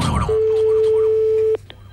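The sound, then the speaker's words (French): Telephone line tone while a call is being placed: one steady, mid-pitched electronic beep held for over a second, then a brief fainter blip. “je vous rappelle, chers auditeurs, que nous appelons deux personnes. Actuellement, nous sommes en train d'appeler Monsieur Villadard, Jean, ainsi que Monsieur Villosset Célestin”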